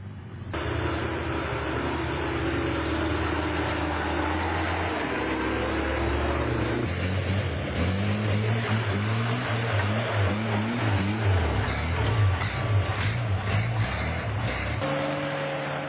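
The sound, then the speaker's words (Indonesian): Jeep engines idling together at an off-road gathering of around fifty jeeps, a steady low rumbling drone that runs without a break, its tones shifting slightly. “Tak kurang dari 50 mobil jeep ikut ambil bagian dalam kegiatan ini.”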